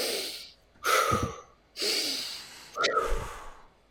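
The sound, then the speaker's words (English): Breathwork practice of inhaling through the nose and exhaling through the mouth: several loud, slow breaths in a steady alternating rhythm, heard alone with no talking. “So the first practice is in and out of in the nose, out the mouth. And it'll sound like this.”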